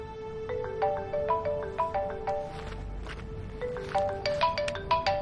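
A phone ringtone at home late at night, a bright, repeating melody of short electronic notes that loops several times at moderate loudness with faint clicks underneath.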